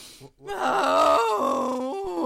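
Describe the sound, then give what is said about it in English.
A person imitates deep moose breath with a long, sustained, voiced groan of wavering pitch that starts after a brief pause, loud and with no other talk. “Are you going to throw up? It's wonderful. It's moose breath.”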